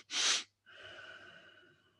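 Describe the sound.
One deep breath: a loud, rushing burst of air, then a short pause and a quieter, drawn-out, slightly voiced sigh-like exhale.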